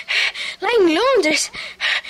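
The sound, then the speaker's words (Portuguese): A woman pants completely out of breath: a few quick breathy gasps, a voiced cry that rises and falls in pitch, then more short gasps. “Acalme-se, você está completamente sem fôlego.”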